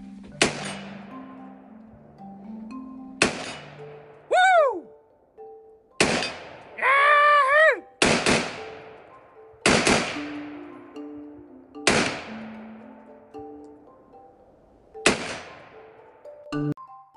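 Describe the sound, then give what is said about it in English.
Gunshots from pistols, shotguns and a scoped rifle. About eight sharp, loud reports are spaced a couple of seconds apart, each a sudden crack that decays quickly over a faint, steady low hum. “So I was shooting guns this week.”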